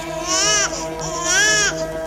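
A teething baby cries in two drawn-out, wavering wails, loud and high-pitched, with a short break between them.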